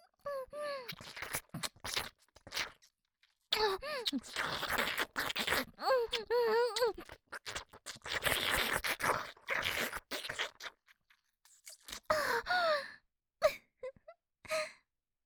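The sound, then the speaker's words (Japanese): Wet slurping of yogurt full of small seeds, many irregular sucking and smacking bursts broken by short pauses, mixed with high, breathy moaning vocal sounds. “音を立てずに吸うのが難しいです。小種たっぷりヨーグルトですの。”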